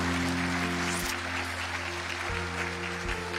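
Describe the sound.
Audience applause at a church service welcoming a guest speaker: a steady wash of clapping runs throughout over a sustained tonal hum.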